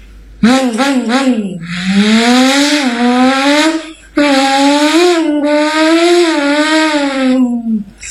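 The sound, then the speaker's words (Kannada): A voice imitates a motorbike speeding past at full speed: a few quick revving wobbles, then a loud, sustained buzzing engine drone with wavering pitch, broken once by a brief pause before a second long held pass. “ಒಂದು bike full feed ಆಗಿ ಹೋಗುತ್ತಿತ್ತು.”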